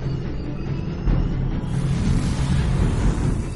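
Roaring whoosh of a flying motorbike entering a portal from a rooftop in a science-fiction film, a dense, loud low rumble that holds steady and then swells stronger after the first second.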